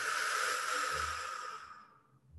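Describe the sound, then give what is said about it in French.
A deep breath, part of an exercise of breathing in through the nose and out through the mouth: one steady, airy hiss that holds for over a second and then fades away. No voices are heard. “De prendre une première grande inspire par le nez et on expire par la bouche.”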